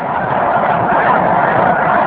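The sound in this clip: Geese honking as a flock of birds calls together, a continuous, busy layer of overlapping nasal honks held at a steady, fairly loud level throughout.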